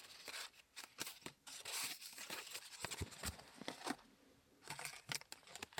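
Plastic cards being handled: faint, irregular clicks, flicks and scraping rustles that come in quick uneven bursts throughout.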